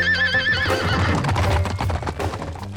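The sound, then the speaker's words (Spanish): A ridden horse gives a wavering high whinny, followed by fast, rhythmic galloping hoofbeats over a busy, noisy background. “¡Vamos a cabalgar! ¡Arre, amigo! ¡Vamos, princesa!”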